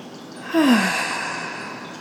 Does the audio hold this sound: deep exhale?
yes